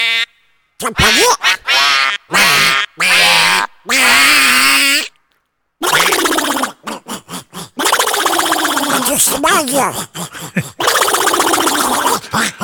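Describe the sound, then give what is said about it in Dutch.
A chorus of quacking cartoon-duck voices, Donald Duck imitations, sings a birthday song in raspy, nasal, buzzing tones. Short separate phrases and a brief pause come first, then a denser, continuous, cacophonous stretch of layered duck voices follows at a steady, loud level. “Het Happy Birthday van allemaal Donald Ducks.”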